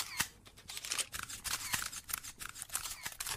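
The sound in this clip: Camera shutters clicking at a photo shoot with brands and sponsors, many quick, faint clicks firing in irregular bursts with no talking.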